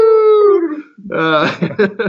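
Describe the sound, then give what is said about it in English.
A voice imitates a Primos Terminator three-pitch elk bugle call: a loud, high, whistling tone that holds and then slides downward, followed by a run of lower, throaty, chuckling grunts. “So the typical Primos Terminator bugle, the three pitch, you know.”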